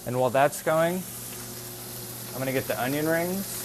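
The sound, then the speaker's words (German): Food sizzles in a pan in a small vegan kitchen, a steady hiss running through the whole clip beneath a man's talk. “Während das hier brät, bereite ich die Zwiebelringe vor.”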